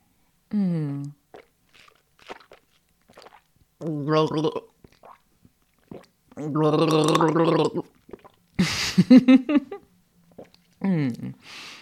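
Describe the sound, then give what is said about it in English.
Gargling a mouthful of tea: a short, wet, bubbling rattle lasting about a second, set between stretches of ordinary speech before and after. “fill your mouth and do a quick little gargle for me. That's fun. I'll do it with my tea.”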